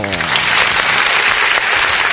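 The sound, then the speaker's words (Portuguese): Dense applause in a studio, loud and continuous from start to finish, with a brief voice heard at the very beginning. “É isso aí. Esse aplauso é para vocês, ouvintes.”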